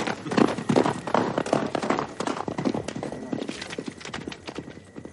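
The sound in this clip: Horse hooves clip-clopping on a road as a rider passes: many rapid, loud hoofbeats that are strongest at the start and grow fainter toward the end.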